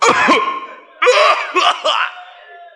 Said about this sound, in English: cough and not cover his mouth. And you are sitting by him.